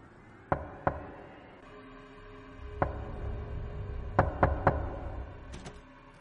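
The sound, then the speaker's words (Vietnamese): Knocking on a bedroom door: faint, sharp raps scattered across a quiet background, a couple of lone knocks early on, then a quick run of three close together, followed by a few more. “bỗng nhiên cánh cửa buồng vang lên tiếng gõ cứ ba nhịp một, cộc cộc cộc.”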